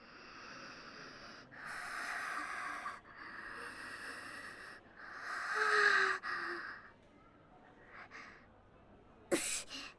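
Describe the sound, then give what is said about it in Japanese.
Deep breathing, taken during a break to calm down: four long, airy breaths follow one another, then a couple of shorter, quieter ones and a sharp snort-like burst near the end. “ちょっと深呼吸っすね。”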